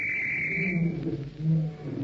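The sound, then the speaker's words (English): A whistle blown at a circus show, one steady high-pitched blast lasting under a second, then lower sustained tones rumbling on alone. “Then, as the whistle blows...”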